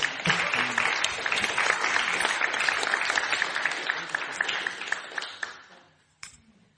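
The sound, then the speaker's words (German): Audience applause: dense, steady clapping from many hands that holds for several seconds, then thins out and fades, ending with one last isolated clap. “Applaus.”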